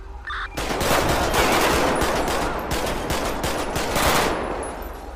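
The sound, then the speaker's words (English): Loud automatic gunfire in a police simulation video game set in a desert, with many rapid shots fired in dense, continuous bursts and no voices. “We need units. We're getting shot at.”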